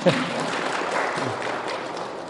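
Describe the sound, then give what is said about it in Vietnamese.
An audience at a teaching session claps on request, a short burst of fairly even applause mixed with some speech. “Rồi, giỏi. Vỗ tay nghe coi.”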